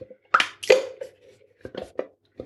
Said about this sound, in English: And then next, add in your barbecue sauce.